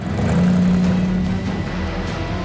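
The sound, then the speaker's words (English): Engine of a red Ford Mustang driving away from a tenement building: a steady mid-pitched motor drone, loudest early on and then easing slightly as it continues. “Nick drives from the tenement building in a red Ford Mustang.”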